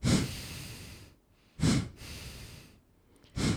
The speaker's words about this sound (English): The test is you put your index finger, so your pointing finger, under your nose, and you breathe out 3 times.